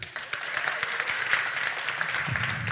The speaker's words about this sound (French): Il faudra applaudir. On va faire un petit test.